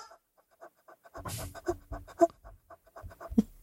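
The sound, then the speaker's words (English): A pet animal pants in distress, with many quick, faint, breathy pulses in a steady rhythm. A few louder scratchy bursts break in along the way. “Sounds like he's in distress. He has no sweat glands, so he has to pant.”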